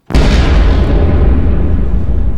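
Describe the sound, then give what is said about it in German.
A massive explosion blowing up a fortress bastion during a 1645 siege by Swedish troops: a sudden loud blast that swells into a dense, sustained roaring rumble filling the whole clip. “Diese scheiß Schweden versuchen wirklich die ganze Bastion in die Luft zu sprengen.”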